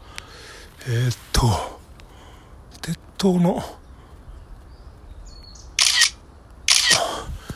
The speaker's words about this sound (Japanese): これ鉄塔が、ちょっと待って、これ写真撮れんのかな